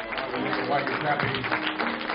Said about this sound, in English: Let's give him a clap of praise for him.